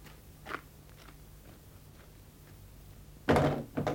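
A gate is shut and locked: a soft knock comes first, then after a quiet pause a heavy thunk and a shorter clack.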